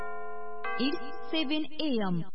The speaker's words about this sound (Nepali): समय सूचक अहिले बिहानको 7 बज्यो।